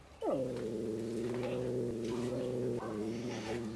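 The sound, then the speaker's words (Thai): A cat gives a low, sustained growling yowl during a territorial standoff as a new cat meets resident cats. The yowl drops sharply in pitch at the onset, then holds steady and strained, with a brief break near the end. “ครับก็มีการขู่กันนะครับทั้งตัวที่อยู่เก่าอยู่แล้วเนี่ยครับก็จะมีการแสดงความเป็นเจ้าของพื้นที่แล้วก็ตัวใหม่เองเนี่ยก็ไม่ใช่ตัวที่จะเข้ากับใครได้ง่ายเหมือนกันนะครับก็จะมีการแยกเขี้ยว”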